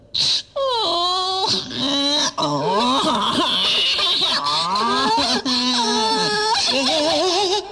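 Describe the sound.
A voice imitates wild animals wailing, mimicking a tiger, a lion and a peacock chick. Several loud, drawn-out howls and cries with gliding, wavering pitch are separated by brief breaths.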